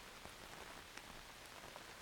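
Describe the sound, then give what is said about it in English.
Pouring rain at night makes a faint, steady hiss of dense, even patter, without pause or any distinct single event. “It's past midnight, in the pouring rain.”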